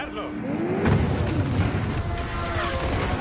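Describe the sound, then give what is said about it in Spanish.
Lamborghini engine roaring as it accelerates during a car chase across a frozen ice plain, a loud continuous rumble with a sharp heavy hit partway through. “Persiguen al Lamborghini de Roman. Acelera y se desvía.”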